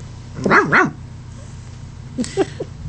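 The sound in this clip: A dog barks twice in quick succession, fairly loud, then after a pause gives a few shorter, softer yips.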